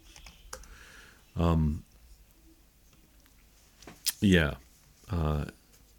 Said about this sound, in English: So let me type this in here.